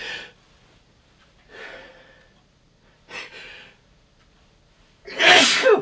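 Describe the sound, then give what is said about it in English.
A single loud, forceful sneeze from a person with irritated sinuses comes at the end, preceded by a few quieter breaths and sniffs. “I'm fixing to sneeze again because my sinuses have been acting up lately.”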